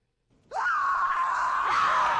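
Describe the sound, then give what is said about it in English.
A human scream plays on a tape loop for a dramatized fall of Jerusalem: one loud, sustained, high-pitched cry that starts abruptly after a brief quiet stretch and holds steady without pause. “And the screaming tape loop in the background is you, right? You betcha. Okay. So bring on the screams.”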